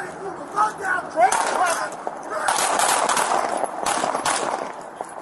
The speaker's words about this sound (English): Shots fired.